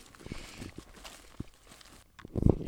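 Footsteps walking through a field, a few irregular soft thuds and rustles, growing louder and denser toward the end.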